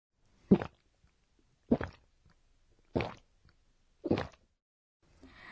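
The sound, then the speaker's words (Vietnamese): A person gulping down a drink, with four distinct swallowing sounds at a slow, even pace, each a short, moist glug separated by quiet. “Ai đó đang uống cái gì phải không ạ? Vâng, đúng rồi ạ. Từ để chỉ âm thanh này là goku goku. Goku goku chỉ âm thanh phát ra khi một người uống ừng ực.”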